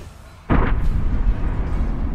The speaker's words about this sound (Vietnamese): Toàn bộ cơ thể của thiên sư này hóa thành một quả bom linh khí, nổ chấn động một vùng.